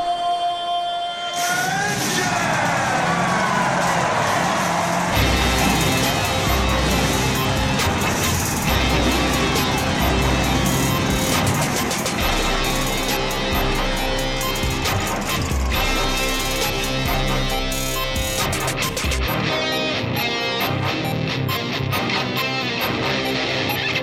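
Stock car engines fire up and roar at the start of a NASCAR race, including a Richard Childress Racing car. After a short quiet opening, a loud, sustained, rasping engine roar with revving continues to the end.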